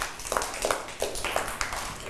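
Audience clapping for a child, faint, scattered hand claps, a few sharp separate smacks at an uneven rhythm rather than a full round of applause.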